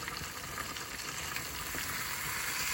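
Oil and butter sizzling in a pan on the stove: a steady, soft, crackling hiss that holds evenly throughout without pause, with no talk.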